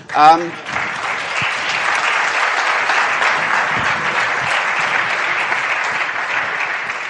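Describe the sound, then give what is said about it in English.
An audience applauds at the end of a conference talk, a dense, steady clatter of many clapping hands that holds at an even level throughout, with a brief voice at the very start. “And you can usually shut us up by applauding. That's a good thing you did.”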